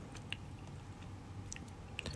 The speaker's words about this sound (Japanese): うんあ美味しいこれもちもちしてます今生で食べてるんですけど